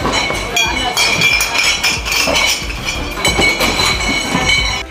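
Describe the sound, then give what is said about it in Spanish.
Glass bottles clinking inside bar counters being readied for Oktoberfest in Munich: many bright, irregular clinks and knocks over a busy background, with voices talking. “Son ruidos de botellas dentro de los mostradores, no de las carpas, botellas de las que van a beber luego esa cerveza que corre a raudales allí en el Oktoberfest.”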